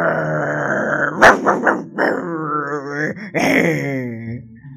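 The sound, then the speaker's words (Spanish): A human voice imitates a dog growling, making a series of rough, throaty snarling bursts of varying length, fairly loud, with no words spoken. “El otro perro le contestó.”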